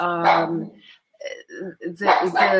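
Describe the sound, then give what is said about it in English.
A dog barks a few times during a conversation. Short, loud, voiced bursts are separated by brief pauses, and people's voices can be heard around them. “Sorry about the dog.”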